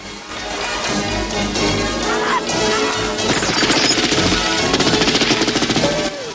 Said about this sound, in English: The boat's captain directs the gunner's fire.